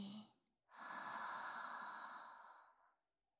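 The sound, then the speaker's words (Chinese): A person takes one long, deep breath in, a steady, breathy rush lasting about two seconds that fades gradually, heard alone after a brief vocal sound. “先跟着我深呼吸，吸气，”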